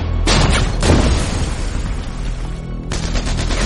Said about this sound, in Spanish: Hasta que un tanque alemán les dispara desde el extremo sur del bosque. Mientras sus proyectiles explotan por todas partes,